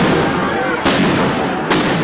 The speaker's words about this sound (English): Police fired tear gas as people ran for cover.